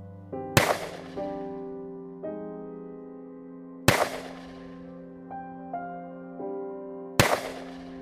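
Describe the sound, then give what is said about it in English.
Three gunshots in a drama scene, fired at a man: three sharp, loud cracks spaced about three seconds apart ring out over sustained musical tones. “With 3 shots to the head of Callum Santiago, he was brutally murdered.”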